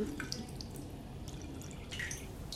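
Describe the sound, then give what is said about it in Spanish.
Thin trickle of shower water dripping, a faint, steady watery hiss with a few small drips scattered through it. “Estoy todo enjabonado y apenas llega un hilo de agua.”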